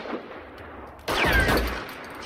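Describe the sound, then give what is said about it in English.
Gunfire erupts during a shootout between armed men. After a quiet lead-in, a sudden loud blast bursts out and rings on for nearly a second before easing off. “Joe shoots Mickey and stumbles forwards, trading fire with another henchman.”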